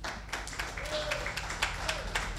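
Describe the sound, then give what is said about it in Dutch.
Scattered clapping from an audience at a Tuesday-night live music session, heard as a series of sharp hand claps under a speaking voice, fairly faint and uneven throughout. “En applaus voor de mensen die dat elke dinsdag doen,”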